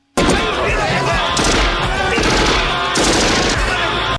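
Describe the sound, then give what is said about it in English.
Gunfire from soldiers shooting back at a lone man, a loud, dense stream of rapid automatic shots and volleys that runs almost without pause for about four seconds. “Oh, they're firing back at him. Yeah, they're firing back at him and they can't hit him.”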